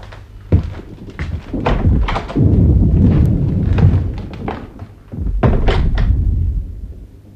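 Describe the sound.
Deep booming thuds of distant cannon fire in a radio play, with a few heavy low impacts and stretches of rolling rumble between them; no voices.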